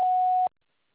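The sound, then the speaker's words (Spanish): A single steady answering machine beep before recording a message, a pure mid-pitched tone held for about half a second and then cut off abruptly, loud and alone with no talk. “Después del tono, grave su mensaje.”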